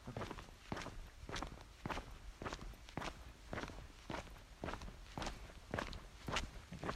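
Footsteps walking along a small path, a steady, even rhythm of many crisp steps that continues throughout, with no talking.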